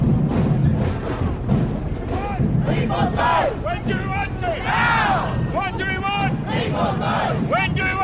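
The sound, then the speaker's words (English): A protest crowd chanting at a street rally, rhythmic shouted phrases rising above a continuous, dense crowd roar. “I brought along my sound recorder, so I might put in a little bit of just like the sounds of the chanting and that kind of thing.”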